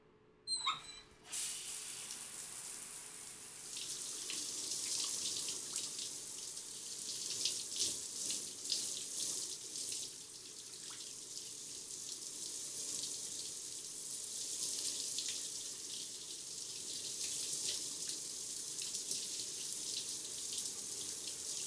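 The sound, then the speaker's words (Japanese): Tap water pours while rinsing a person's back during a wash, a steady rushing hiss that runs for about twenty seconds with irregular splashy surges, after a short clatter at the start. “はい、じゃあ流しますね。”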